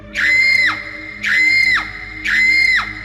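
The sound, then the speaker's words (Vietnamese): A young woman screams three times into a still night, each a loud, shrill, steady cry lasting about half a second that drops away at the end, evenly spaced and with no other voices. “Tiếng thét đó như xé toạc bầu trời đêm tĩnh mịch.”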